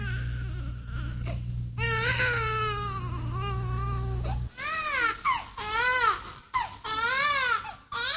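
An infant cries loudly in long, wavering wails, with short breaks for breath between the cries toward the end.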